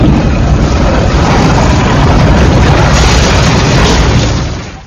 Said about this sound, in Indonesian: Mesin pengupas bawang merah Ger BWG 25 dari Agrowindo untuk kebutuhan processing, mengupas bawang